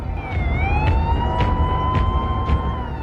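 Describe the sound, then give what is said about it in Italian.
Police car sirens speeding past outside a movie theater: loud, continuous wailing tones holding fairly steady pitch, with regular pulsing bursts layered over traffic rumble throughout. “Mentre le auto della polizia sfrecciano di fronte al Texas Movie Theater”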